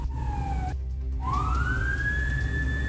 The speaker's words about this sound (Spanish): Claro, ahí vienen llegando los efectivos policiales con balizas, con sirenas, para que los dejen pasar, producto de la emergencia.